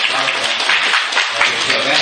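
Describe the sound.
Applause from an assembly welcoming a doctor to speak, a dense and steady wash of clapping that runs throughout with a voice mixed in.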